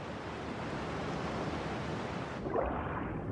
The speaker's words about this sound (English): White waves crash upon rocks.